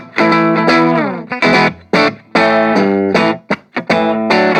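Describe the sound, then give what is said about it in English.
An Orange Crush 20RT amp with the bass turned all the way up carries loud, distorted electric guitar chords, thick and effect-laden, struck in short bursts and a few longer held chords separated by quick cutoffs. “So if we push the bass all the way, we can really hear what the difference it makes.”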